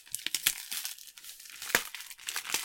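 Crisp paper crinkling and tearing as a lovingly gift-wrapped Christmas package holding a Tetra Pak carton is opened. Many quick, sharp bursts of rustle and rip follow one another irregularly, with no talking.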